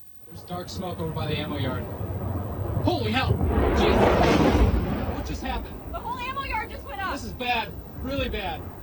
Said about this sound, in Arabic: مقطع مصور وتعليق يقول مرئي، يقصد بالفيديو يعني، من اللحظة التي ضرب فيها صاروخ إيراني قاعدة الأسطول الخامس الأمريكي في البحرين، صاروخ إيراني مرعب.